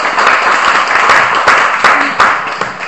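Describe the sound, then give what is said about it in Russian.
A group applauds as a mother takes her turn first, loud steady clapping with a few sharper individual claps punching through the wash. “Ну что, поехали дальше? Зачет. Кто готов? Я. Мама первая. Аплодисменты.”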